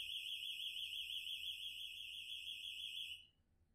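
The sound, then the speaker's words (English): An electronic alarm going off with a shrill, warbling high-pitched tone layered with bright overtones. It sounds continuously and fairly quietly before cutting out abruptly near the end, leaving near silence. “sorry, the alarm went off.”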